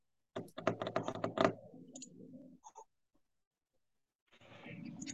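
Quick keystrokes on a computer keyboard as a name is typed during a Zoom video meeting: a dense run of sharp clicks, then softer tapping and a couple of isolated clicks, followed by a stretch of quiet and a steady rushing noise at the end.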